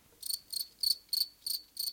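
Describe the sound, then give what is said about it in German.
Crickets chirp in an inserted sound effect: six evenly spaced, high, buzzy chirps, each a short pulsing trill, repeating in a steady rhythm against faint background. “Ich hab hier nur ein bisschen Pause gelassen, damit ich da das Grillenzirpen einsetzen kann.”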